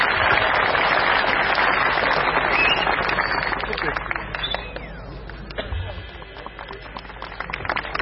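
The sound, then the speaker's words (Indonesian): Audience applause at a religious talk gathering, with dense, steady clapping for about four seconds that then thins and fades, with some voices underneath. “Oke, sebelah mana kita tepuk tangan untuk Muhammadiyah.”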